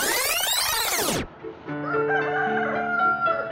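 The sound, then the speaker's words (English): A rooster crows and chickens cluck at a warehouse in Conyers, across the street from a chemical plant. One loud arching crow opens, then after a brief dip come softer, overlapping clucks and drawn-out calls. “You hear that? That's one of the first things you notice”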